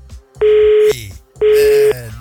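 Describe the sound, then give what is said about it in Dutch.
Two loud telephone tones sound as a phone call drops. Each is steady, at the same pitch and about half a second long, with a short pause between them. “Gaat hij niet opgehangen? Hij valt weg. We gaan hem snel weer bellen.”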